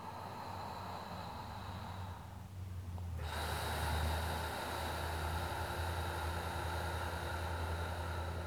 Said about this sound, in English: Put your left hand on your stomach. And take three long breaths, trying to be as soft and relaxed as possible.